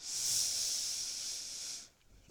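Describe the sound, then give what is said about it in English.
A long, steady inhale during a yoga flow makes a soft, hissing rush of air that lasts almost two seconds and then stops, leaving near silence. “Breath in,”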